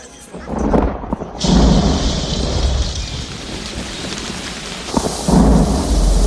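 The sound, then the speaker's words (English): Heavy rain pours down in a cemetery during a thunderstorm, a steady dense hiss under deep, rolling thunder. The low rumble swells into two louder surges, one early and one near the end, with no voices. “The rain's pouring down in the cemetery, where Ellen's walking”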